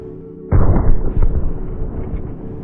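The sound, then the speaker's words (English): A 16-pound sledgehammer swung as hard as possible strikes a polycarbonate plastic panel. The single sudden, loud blow is followed by a ragged, rumbling decay with a few smaller knocks. “To demonstrate that, I'm hitting a polycarbonate panel with a 16-pound sledgehammer as hard”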